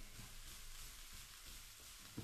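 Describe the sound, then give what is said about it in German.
Steady sizzling as button mushrooms are stirred into onions frying in a pan for a pretzel-dumpling dish with bacon. A faint, even hiss runs throughout, with a brief soft scrape near the end. “So, dann nehmen wir doch schon mal jetzt unsere Champignons und tun sie zu unseren Zwiebeln dazu. So. So, einmal kurz ein bisschen reinrühren.”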